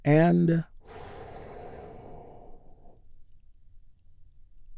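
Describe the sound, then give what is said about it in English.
A deep, heaving breath during a guided breathing exercise, a long airy rush that holds steady and then fades out. It follows a short spoken phrase. “take another big, deep, heaving breath with me right now. Here we go.”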